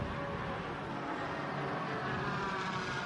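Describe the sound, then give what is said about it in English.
Race car engines, a big twin-turbocharged V8 AMG and a Porsche 718 Cayman with a 4-litre flat-six, drone steadily through a sports car race. The faint roar holds even throughout with no talk. “The difference in the sound of that big twin turbocharged V8 and the 4-litre flat 6 of the Cayman 718.”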